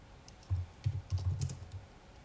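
Keys clack on a computer keyboard close to the microphone in a short burst of several soft, quick clicks with no voices.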